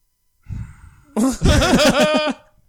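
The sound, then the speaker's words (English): A groan from a person: a soft breathy exhale, then a longer voiced groan with a wavering pitch that fades out. “That was a sexy noise. It was a sexy groan.”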